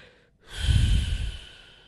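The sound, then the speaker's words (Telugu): A single wet sniffle from a runny nose being wiped rises sharply and then tapers off. It is moderately loud and stands alone, with no talking. “ముందు ఆ ముక్కు తుడుచుకో.”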